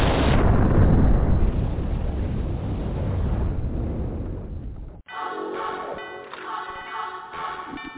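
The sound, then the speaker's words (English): A bomb explosion sound effect opens with a loud, broad roar that rumbles for about five seconds and slowly fades, then cuts abruptly to music. “Drop a bomb right quick.”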